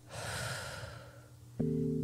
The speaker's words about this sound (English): take 3 deep breaths with me again to bring you back into the room. Breathe in and out.